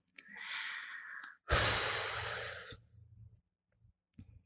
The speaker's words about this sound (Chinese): 深呼吸。